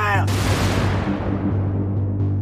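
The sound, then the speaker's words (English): A burning ship explodes in Halifax harbor with a sudden broad roar that bursts in, then rumbles on while its high hiss slowly fades away. “At 9:04 a.m., the Mont Blanc exploded.”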